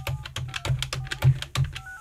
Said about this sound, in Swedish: Jag ringer upp honom.